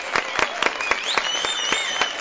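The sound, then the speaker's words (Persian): Many quick, evenly spaced claps ring out as applause in honour of the listeners. The rhythm stays regular throughout, with a faint high whistling tone gliding upward partway through. “بریم سراغ اون تشویق همیشگیه؟ بریم. به افتخار هر چی فینیه تو کل منظومه شمسی، بزن اون دست قشنگ رو.”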